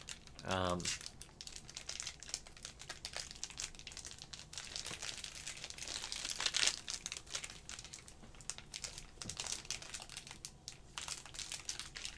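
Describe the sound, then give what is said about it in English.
Crinkly plastic packaging of an inflatable lightsaber being torn open, a continuous irregular crackle and rustle throughout, with brief voices near the start. “It's an inflatable lightsaber. What do I do? So, you gotta... it looks like you gotta tear it or something. I kind of hope that I break mine while trying to do this.”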